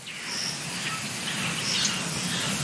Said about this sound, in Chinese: 白脸树鸭幼鸟拼命逃生。